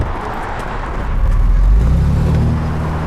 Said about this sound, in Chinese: 胡建仁开车走了，我们跟上。